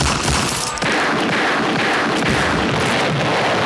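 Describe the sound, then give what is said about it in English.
Machine gun fire roars in a loud, unbroken barrage of rapid overlapping shots, dense and harsh throughout, with no talking. “Everything's made better with machine guns.”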